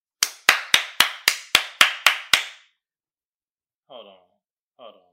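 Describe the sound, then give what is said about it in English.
Nine quick hand claps in an even, steady rhythm, each one a sharp, bright smack, followed after a pause by two brief voice sounds. “Hand clap for y'all.”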